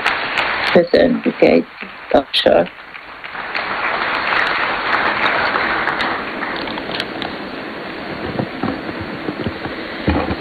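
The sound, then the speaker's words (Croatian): Applause from the audience at a Franciscan gathering begins after a few seconds of speech and continues as sustained, evenly dense clapping to the end. “Molim, podržite je jednim pljeskom.”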